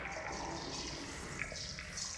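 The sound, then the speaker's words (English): Espresso wastewater trickles into a machine's drip tray, picked up by a contact microphone underneath: a soft, continuous watery wash with faint, scattered patter throughout. “there's a contact microphone underneath where the water, the wastewater after making the espresso is dripping down.”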